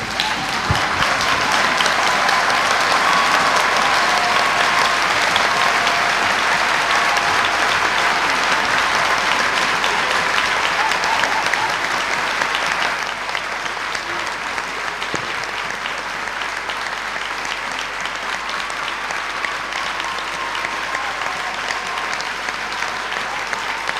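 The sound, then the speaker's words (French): An audience at a healing service applauds at length, a loud, sustained roar of clapping that holds steady and then drops slightly in level about halfway through before continuing. “If you have been healed by the Lord Jesus Christ, si tu as été guéri par le Seigneur Jésus-Christ, lève-toi et acclame-le.”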